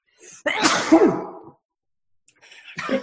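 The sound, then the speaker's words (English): A sudden loud human sneeze bursts out and then fades, followed after a short silence by a second, quieter burst of breath. “So that was a sneeze. I was not expecting that. My eyes water.”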